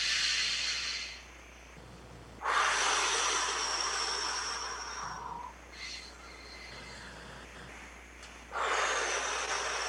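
Group breathing during a breathing exercise that pairs each inhale and exhale with arm and hand movements: long, rushing, airy breaths rise and fall in several waves, some louder and fuller, others softer, with no talking.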